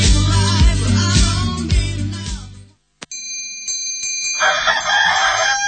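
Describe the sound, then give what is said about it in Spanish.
A rooster crows with a clear, tonal call rich in overtones. It follows loud music that cuts off abruptly, with a brief click in the gap. “Cuando canta el gallo”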